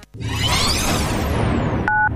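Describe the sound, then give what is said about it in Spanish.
Radio hourly time signal ahead of the news: a loud, noisy sweeping whoosh fills most of the stretch, then a short, clear two-tone beep sounds near the end, with another just starting as the sound cuts off. “Sonó el top y en Radio 750 estas son las noticias.”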